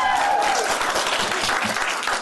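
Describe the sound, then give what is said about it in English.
A crowd of striking union workers applauds at a county board of supervisors meeting: dense, loud clapping that holds steady for the whole stretch and eases slightly at the very end. “If we applaud again, I'll take a 20-minute break. Please do not applaud.”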